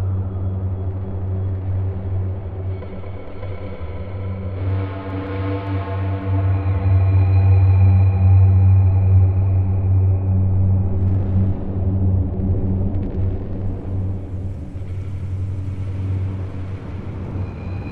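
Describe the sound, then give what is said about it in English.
A car drives down an empty highway with a steady low engine hum and road rumble. The sound swells in the middle and then settles back to a constant drone. “The dark man drives down an empty highway.”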